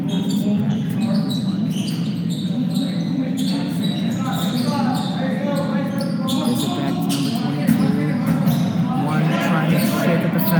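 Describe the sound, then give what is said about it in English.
A basketball dribbled up the court during a game, heard as many quick, regular bounces over a constant wash of background noise that runs through the whole stretch. “One's trying to make something happen, trying to dribble up the court, wants a shot”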